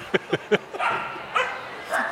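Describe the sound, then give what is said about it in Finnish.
A dog yipping downstairs: three quick, sharp high yips come first, then longer, softer whining sounds follow. “jip, sanoi koira tuolla alhaalla.”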